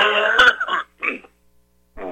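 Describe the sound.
Throat clearing and coughing from a man pausing mid-talk: a few short, rough, voiced bursts, the first longest with a sharp catch in it, separated by brief silences.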